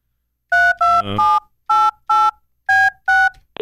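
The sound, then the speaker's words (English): A phone number is punched in on a touch-tone telephone, producing a quick series of short, bright dual-pitched beeps, about eight of them, in an uneven rhythm with brief gaps, ending in a faint click. “Should I just dial 603 and then make up numbers?”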